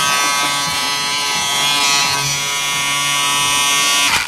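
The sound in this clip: Steady electric shaver buzz, a dense, bright, even drone that holds for about four seconds without a break and without voices.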